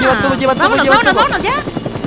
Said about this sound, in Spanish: Va, es momento de subirnos. Ya llega. Al helicóptero.